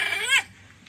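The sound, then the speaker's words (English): A single short dog bark, a bright, high yelp that rises and then drops off in under half a second before fading to quiet. “That second sound he made sounded exactly like a dog. It was that was a dog.”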